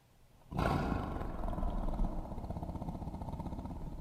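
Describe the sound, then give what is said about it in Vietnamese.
A tiger lets out one loud, deep roar that bursts in suddenly and holds for several seconds, then settles into a rough, pulsing growl that carries to the end. “Con hổ thấy vậy, gầm lên một tiếng”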